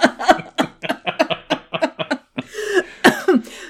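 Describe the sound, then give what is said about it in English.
Coughing fit after choking on a drop of spit: a rapid series of sharp, harsh coughs in quick bursts, ending in sputtering, throat-clearing hacks. “I tried to inhale to laugh at that, and I like a drop of spit flew off of my tongue and hit the back of my throat.”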